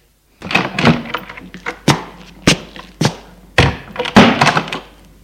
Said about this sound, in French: Elle ouvre la porte et sort.